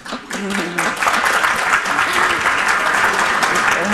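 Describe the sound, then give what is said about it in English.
Audience applause, a dense, steady clatter of many hands clapping at full loudness for several seconds, with a voice briefly audible underneath at the start. “I love the reactions from the audience right now.”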